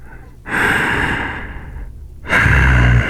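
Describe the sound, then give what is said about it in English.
Breathing, two long breathy passes of air, the first a sustained soft rush and the second louder and shorter, with no talk over them. “I love hearing you breathe, baby.”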